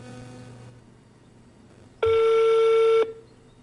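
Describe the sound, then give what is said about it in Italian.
A single steady electronic telephone tone sounds for about a second, loud and even, after a quiet stretch of low background hum. “Provo a chiamare Giancarla Bonardi.”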